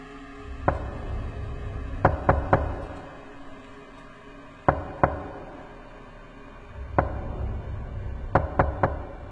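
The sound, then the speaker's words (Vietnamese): Knocking on a door comes as sharp, hollow raps, some single and some in quick groups of three, separated by pauses over a low rumbling background. “Là tiếng gõ cửa. Tiếng gõ cửa buồn tôi. Tiếng gõ cửa nghe rõ lắm. Vang lên 3 tiếng một.”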